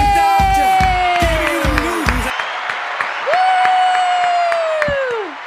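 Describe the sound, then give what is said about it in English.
A studio audience applauds and cheers at the start of an economic update segment, a loud, continuous wash of clapping and crowd noise that carries on to the end. “the studio audience is popping.”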